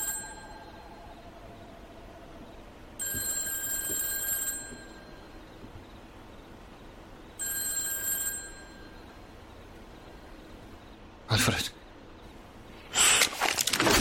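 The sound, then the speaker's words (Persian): A telephone rings in a house where someone is lighting a candle and checking an old generator. There are two bright, trilling bursts of about a second and a half each, separated by a few seconds of quiet hiss. “همچین موقعی کی داره زنگ میزنه؟”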